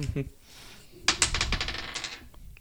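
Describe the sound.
Dice rattle and clatter across the board during a turn in a horror-movie trivia board game. A quick burst of many sharp clicks lasts about a second, with faint voices nearby.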